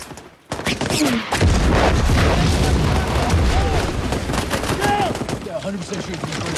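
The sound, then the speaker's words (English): Battlefield gunfire landing near a running man: after a brief quiet start, loud gunshot reports and rapid bursts pour in continuously, with voices heard among the shooting. “One of the men runs down to the battlefield, shots landing near his feet.”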